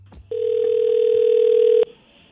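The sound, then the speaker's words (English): Telephone dial tone heard while dialing out a call: a steady, continuous tone lasting about a second and a half, then cutting off abruptly in near silence. “So I would say this is new for me as well, doing the dial out.”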